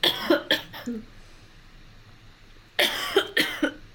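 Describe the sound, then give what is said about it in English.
Harsh coughing from a person with a scratchy throat during an interview, in two short bursts of several quick coughs separated by a quiet pause. “I had my cough drops nearby in case I had a coughing fit”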